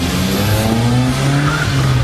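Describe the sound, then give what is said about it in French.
A car pulls away on the morning drive, its engine roaring loudly and steadily with squealing, whining tire tones running through the whole burst and no voices. “Les chaussures, direction la voiture, on dépose les enfants et hop, au boulot.”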